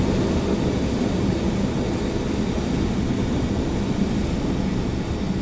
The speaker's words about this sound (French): Et voilà, il vient de décoller. Atterrissage.